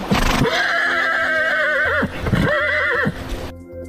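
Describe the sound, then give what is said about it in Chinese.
The lead horse of a pack train in a narrow river valley neighs sharply in two long, shrill whinnies, the first longer than the second, with some hoof clopping alongside. “突然，头马猛地发出一声尖锐的嘶鸣。”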